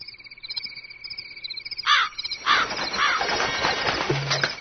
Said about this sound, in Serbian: Ne boj se, ja sam samo svraka. Patim od nesanice, pa sam doletela da malo protegnem krila.